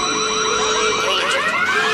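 An alarm sound effect blares with continuous, loud, warbling electronic tones that sweep up and down in overlapping layers, alone, with no voices.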